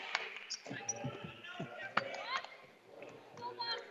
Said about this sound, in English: She'll lose the basketball. And then dribbling out with it.